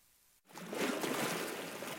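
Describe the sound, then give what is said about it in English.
Waves lap along the shoreline of Cortez Island in British Columbia: a steady, loud washing rush of water that begins after a brief silent moment and continues evenly to the end. “Waves lapped along the shoreline of Cortez Island in British Columbia.”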